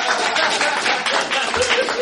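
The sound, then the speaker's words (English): An audience claps in response to a storyteller's cue, a steady wash of many hands that holds at moderate loudness throughout with no speech over it. “I wrote in, pause for clapping.”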